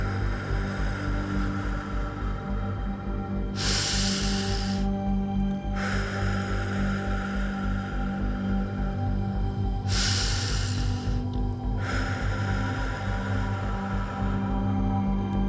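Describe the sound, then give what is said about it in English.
Deep breaths drawn in through the nose and released through the mouth during a stress-relief relaxation exercise: two full, airy breaths come through clearly over a steady, soft sustained musical tone. “taking a big breath in through the nose and out through the mouth”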